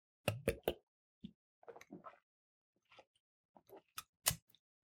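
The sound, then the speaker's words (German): Sipping from a longneck beer bottle brings scattered short clicks and hollow glassy plops, then soft gulping mouth sounds, all faint, with brief silences between them. “Also, ich trinke mal einen Schluck mhm. auf.”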